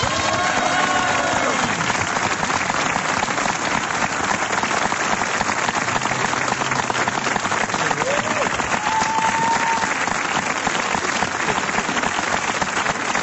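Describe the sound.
Applause from an audience welcoming the a cappella group A4 at a private concert: dense, steady clapping that fills the whole clip without pause, with a few faint whistle-like tones rising above it.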